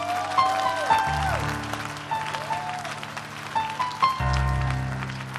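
Congregation clapping during a lively church sermon: a dense, steady wash of many hands clapping together, loud and continuous throughout with no break.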